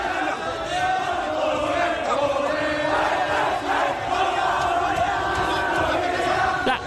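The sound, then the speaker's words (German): Korean football fans roar and shout in the stands, celebrating their team's World Cup qualification: a thick, continuous crowd noise with overlapping yells that stays loud and fairly even throughout. “Korea hat es geschafft, sie haben sich die Tage für die nächste Fußball-WM qualifiziert und die Fans heulen auf den Rängen, die feiern sich halt ab, umarmen sich. Ich lieb's. Und so klingen happy koreanische Fußballfans eben.”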